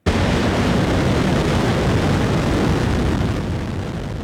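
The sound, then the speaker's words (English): Sustained, thunderous roar of South Korea's 200-ton Nuri space rocket lifting off from the Naro Space Center. The loud, dense rumble holds steady for several seconds and eases slightly near the end. “The 200-ton rocket lifted off earlier today at 12:25 p.m. local time from the Naro Space Center”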